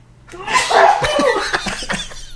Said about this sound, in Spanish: Un estornudo, gracias.